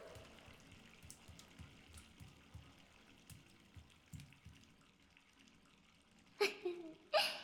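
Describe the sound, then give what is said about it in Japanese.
Hot spring water runs from a shower in a steady, faint hiss, followed by two louder splashy bursts near the end. “お湯出すね。 わー、あったかいしいい匂いがする。 シャワーも温泉だったりするのかな。”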